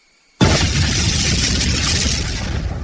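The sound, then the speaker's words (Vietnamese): Firecrackers exploding on both sides of mountains: a sudden loud blast cuts in from silence, then holds as a broad, steady roaring rumble that fades only slightly by the end. “Tiếng pháo ở hai bên núi đùng đùng nổ lên bất tuyệt. Có rất nhiều quả pháo thăng thiên bay lên không trung, nổ tung, khánh chúc Ngũ Nhạc Phái chính thức khai sơn lập phái.”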